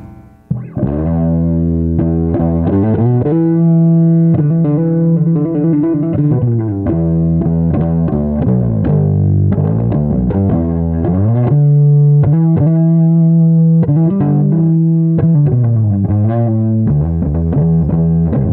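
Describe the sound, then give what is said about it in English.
Electric guitar overdriven by a rare 1984 Ibanez Super Tube Screamer pedal. Thick, loud, sustained notes and chords play alone, with a few quick picked phrases between held tones. “That's like the old, I think they made it in 84, but it's a Ibanez Super Tube Screamer. It's like a pretty rare one.”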